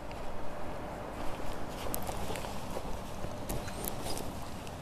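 A dog's paws and claws patter across a floor in many light, uneven taps over a steady noisy background.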